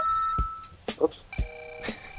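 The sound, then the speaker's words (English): A phone's text message alert plays as a few short, faint electronic tones mixed with soft clicks, with brief pitched beeps at uneven intervals. “Yeah, that was a text message.”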